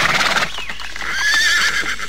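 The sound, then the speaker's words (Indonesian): A horse whinnies loudly as riders dismount, a long high wavering neigh that holds and trembles for over a second, with no voices. “Mari kita turun dari kuda, Kak. Hup! Hup!”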